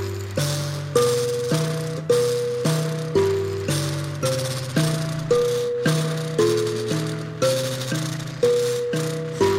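Single melodic line plucked on an mbira: a steady repeating pattern of bright metallic notes, each fading quickly, with a buzzing rattle over them. It is played alone with no voices.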